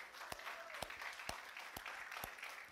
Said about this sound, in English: Come on, Faith Victory Church, give them a big hand.